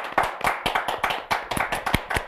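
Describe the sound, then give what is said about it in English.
A studio audience claps during a show poll about preferring an old pirate show. Sharp, distinct claps come in a quick, fairly regular rhythm, many separate smacks rather than a blended roar, loud and with no voices. “round of applause if you liked the old show.”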